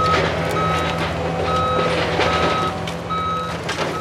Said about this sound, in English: In Greenfield, men driving little bobcat wheel loaders dart around, scooping up rubble and carting it to the street.